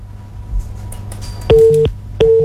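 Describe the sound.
A telephone busy tone after a dropped call: two steady mid-pitched beeps in the second half, separated by a short gap, following faint line noise and a few soft clicks.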